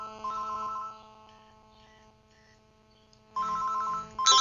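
An electronic telephone ringtone signals an incoming call on a phone-in show, a tonal, melodic ringing pattern that eases into a quieter stretch before returning in louder bursts.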